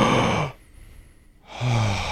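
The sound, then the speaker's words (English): Deep breathing as an anxiety-calming exercise: two audible, slightly sighing breaths, one at the start and one at the end, separated by a quiet held pause. “if you take 6 deep breaths”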